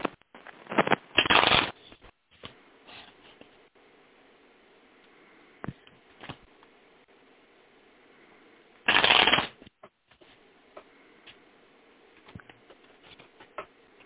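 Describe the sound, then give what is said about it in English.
Tarot cards are shuffled and cut in three: two bursts of rapid riffling fluttering, one near the start and one later, with soft scattered taps and ticks of cards between them. “Now I'm going to pull the tarot card and do a three-card cut.”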